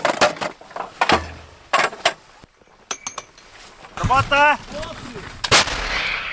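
Artillery rounds are fired toward Russian positions, with several heavy booming blasts in quick succession and brief metallic clinks in between.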